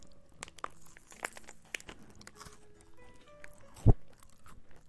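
Crunching while eating sachima, a crisp fried Chinese pastry: a few faint dry crackles and clicks, then one sharp loud crunch of a bite near the end.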